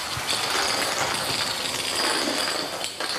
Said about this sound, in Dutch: De brandweerauto's worden naar binnen gereden